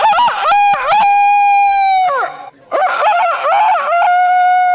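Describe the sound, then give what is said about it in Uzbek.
A rooster crows twice. It is the cock of a flock of about forty hens. Each crow is a long, loud, ringing call with a sharp stuttering start, a held middle note, and a brief pause between the two. “Mana ertalab soat 5 dan to'q qorong'i tushgunga qadar tinim nimaligini bilmaydigan 40 ta, beshara yozli saratonda esa 70 ta tovuqqa o'z xizmatini ayamaydigan xoroz ovozi.”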